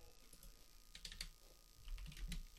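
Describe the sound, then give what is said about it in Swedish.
Keyboard typing as answers naming football players are entered during a guessing quiz: faint, irregular clusters of quick key taps, growing busier toward the end. “Jag ska skriva ner dina svar här.”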